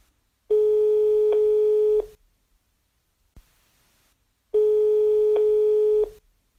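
Telephone ringing tone heard while a call is being dialed: two long, steady electronic tones separated by a long silent gap, with a faint click in between and no voices.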